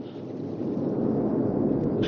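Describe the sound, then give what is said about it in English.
River rapids roar far below in a steady, unbroken wash of deep rumbling noise that holds at an even level throughout, with no voices. “The rapids thunder relentlessly far below him.”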